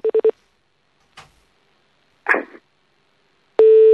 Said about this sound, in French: Allez, on rappelle une dernière fois.